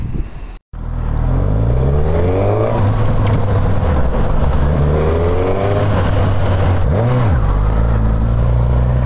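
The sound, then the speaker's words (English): A Suzuki motorcycle with a quickshifter accelerates hard, its engine note climbing repeatedly in pitch and dropping sharply at a few quick gear changes, loud and continuous throughout. “I'm just riding away on this Suzuki”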